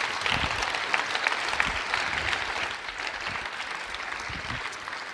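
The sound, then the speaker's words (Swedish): Audience applause: a dense, sustained wash of clapping, slightly louder at first, dipping a little midway and then continuing steadily. “Ta ju Stefan en stor applåd.”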